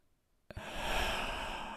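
A deep breath let out in one long, steady rush of air, beginning abruptly after a short silence and holding at an even, moderate loudness, with no voice.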